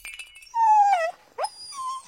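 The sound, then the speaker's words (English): A puppy whimpers in a few thin, high whines: a longer cry that sinks gently in pitch, followed by shorter, quieter whimpers. “This is the tale of Lila the puppy. Lila loved to play.”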